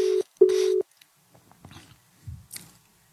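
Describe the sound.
A telephone is dialed to place a call for a news bulletin from Jalandhar. Two steady mid-pitched tones sound first, one short and one longer, followed by a few faint clicks and handling noises.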